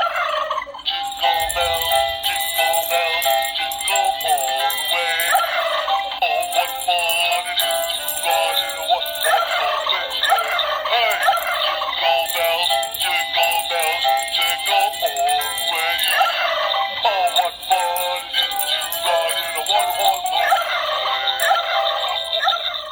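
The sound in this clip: Turkeys gobble loudly and without a break, with many overlapping gobbles forming a dense, steady chorus from start to finish.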